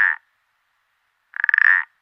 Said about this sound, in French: Tu es ? Je suis le pélodite ponctué.